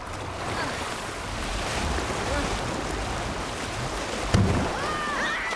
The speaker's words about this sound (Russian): начинает грести медленно, затем быстрее. Течение ускоряется.